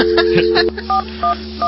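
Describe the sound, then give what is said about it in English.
Touch-tone dialing of 411 on a payphone: a steady dial tone, then three short, bright electronic tone beeps spaced evenly apart. “You're going to make a call. So, what do? First, you get dial tone. Developers! Wrong one. You dial 411.”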